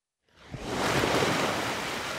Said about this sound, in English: Families have gathered here at sunset on the beach in Muscat to splash in the water